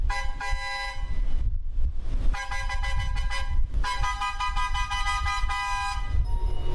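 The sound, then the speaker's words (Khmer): Repeated long, steady blasts from a train's horn-like whistle signal a morning departure at the Phnom Penh railway station. Several sustained tones are separated by short gaps, with a low rumble underneath throughout. “ស្ថិតក្នុងស្ថានីយ៍រាជាយស្ម័យយានភ្នំពេញសំឡេងស៊ីផ្លេចេញពីរថភ្លើងមួយគ្រឿងដែលជាសញ្ញានៃការចេញដំណើររថភ្លើង”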